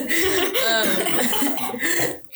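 Harsh, loud coughing from a person choking on air: a quick run of rough, breathy bursts that hack and rasp almost without pause, then break off abruptly.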